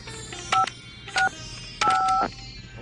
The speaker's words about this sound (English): Please dial in your birth month.